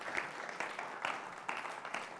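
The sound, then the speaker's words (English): An audience applauds a volunteer who carried a heavy load. Many hands clap in a faint, dense patter with a few sharper claps standing out. “So can you guys give Andy a round of applause for carrying all this weight for me?”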